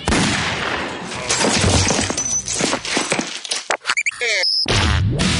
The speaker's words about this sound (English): 9mm solution. Sometimes it is the solution. Gun to chin, pull trigger.